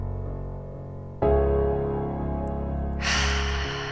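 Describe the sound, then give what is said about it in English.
A long, deep inhale during a guided morning breathing exercise, a soft hiss swelling near the end over sustained, calm musical tones. “Again, take another long, deep breath in.”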